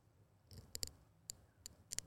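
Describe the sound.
A beer can cracked open very slowly gives a series of faint, sharp metallic clicks and ticks spread over about two seconds, without a single clean pop.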